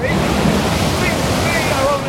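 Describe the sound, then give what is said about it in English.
Huge storm waves crash around a sailing ship caught between two seas in a northeast storm: a loud, unbroken roar of surf and wind that holds at an even level throughout. “The waves are coming in! Huge seas from two directions!”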